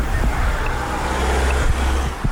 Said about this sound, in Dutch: Ja, 53. Bus 53. Die was het. Ja, ik zie hem.